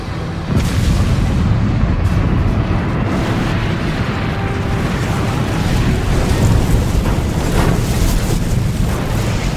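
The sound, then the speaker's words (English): An aircraft with a failed number two engine crash-landing: a loud, continuous roaring rumble with booming impacts starts abruptly just after the opening and stays at full force until the end. “Number two engine is gone. I know. We're going down. Get me a landing site. Keep it steady. There. That looks like a park. I can't make that. Brace for impact.”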